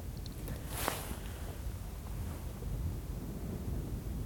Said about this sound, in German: Ist gerade schwer zu sagen, weil auch ein bisschen Wind ist.